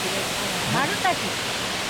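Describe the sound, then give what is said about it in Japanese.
A two-tiered waterfall cascades steadily, its spray falling like an opening flower. The sound is an even, moderately quiet rush of broad white noise with no breaks. “ちょうど水のしぶきが花が開いたように下へ落ちてくるという大変綺麗な滝になってますね。”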